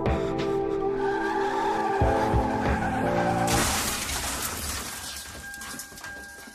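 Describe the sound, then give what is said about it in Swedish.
A car, a Mini Cooper, skids out of control on an icy road. Its tires squeal in loud, sustained tones for several seconds, then give way to a broad, noisy rush that slowly fades. “Bilen går inte att kontrollera. Däcken fattar inte fäste om vägen och ratten lyder inte händerna som så hårt håller i den.”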